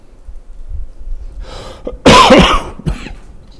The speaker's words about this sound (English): getting over this cold, I've got a cough, I've got some cough drops up here